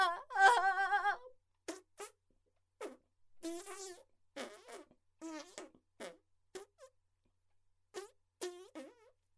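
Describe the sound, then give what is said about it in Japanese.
Farting sounds: one long, buzzy, rasping release, then many short, separate bursts with pauses between them, all moderately loud. “まだヘが出るの？すごいわね。”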